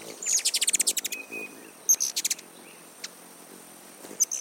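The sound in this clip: Hummingbird chirping, thin, very high-pitched chirps delivered in quick rapid-fire bursts, with a dense run early on followed by shorter scattered clusters and single notes.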